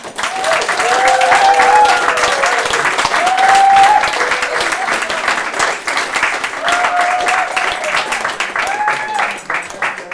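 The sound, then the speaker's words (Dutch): Applause from an audience at a literature and spoken-word evening, a dense, loud wash of clapping that holds for about ten seconds, with a few high cheers and whoops rising above it. “Jullie willen sowieso wel nog een keer heel hard klappen voor Asmea, toch?”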